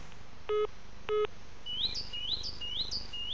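Birds chirp in a garden in a run of short, bright, rising chirps repeating in quick succession. Two brief electronic beeps come just before.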